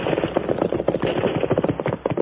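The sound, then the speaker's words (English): Rifle fire crackles through a gunfight as a rapid, dense volley of sharp shot cracks that runs without pause across the whole moment, loud and uneven in rhythm. “Rifle fire”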